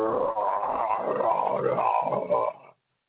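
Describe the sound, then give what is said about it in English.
A voice imitates a growling stomach with a low, gurgling, rumbling growl that wavers for about two and a half seconds before cutting off into silence. “hold on. That's my stomach, and it's not a demon. It's just a bunch of ribs being digested.”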